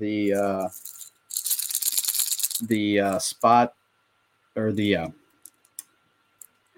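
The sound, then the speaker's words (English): An LV fishing lure bait is shaken and gives a marbly, small rattle: a dense burst of tiny beads clattering for about a second, then a shorter shake. Spoken talk comes before and after, and a few faint ticks follow at the end. “a lot of these baits come with different kind of sounds, so that this is the LV. It has that kind of marbly small rattle sound.”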